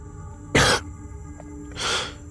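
Harsh coughing from a man coughing up blood after being hurt: a sharp, loud burst, then a softer, longer cough about a second later, with no talk.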